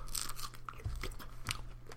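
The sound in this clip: Chewing of a fresh strawberry with the nose held shut: soft, wet crunches and squelches repeating irregularly over two seconds, quiet and with no talk.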